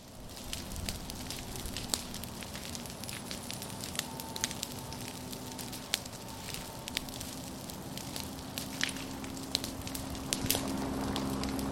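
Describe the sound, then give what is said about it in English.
A prescribed dry fire burns through pine savannah along a loop road, giving a steady, faint crackling hiss with many sharp pops scattered throughout. “So we've started our dry fire here over in the Pine Savannah. So we've got fire along the loop road.”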